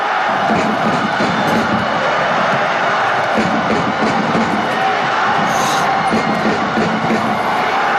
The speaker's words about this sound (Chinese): 现场我们清晰地听到主队徐州队的球迷们在用自己的呐喊声为球队加油助威。